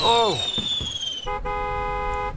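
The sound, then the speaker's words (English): Stored fireworks set off all at once by a stray spark under their canvas cover: a high whistle glides downward over scattered bursting pops, then gives way to a steady, hooting, horn-like tone. “A stray spark just got under the canvas where the fireworks are stored, and they're all blowing at once.”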